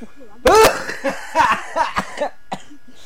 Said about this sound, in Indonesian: Jadi batuk duh.